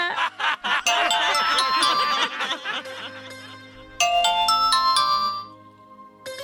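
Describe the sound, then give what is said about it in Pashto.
A telephone ringtone plays in loud, bright melodic bursts. Chuckling and laughter mix in under the first half, and a second round of ringing follows before it fades. “او مای ګاډ، چپ شاټ ټلیفون دی.”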